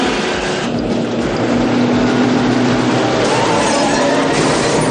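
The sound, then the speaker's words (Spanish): Engines of a speeding car and truck during a reckless overtaking chase in a 1990 action film, heard as a loud, steady roaring drone that holds without a break throughout. “Tanto el turismo como el camión van a toda velocidad llevando a cabo adelantamientos temerarios.”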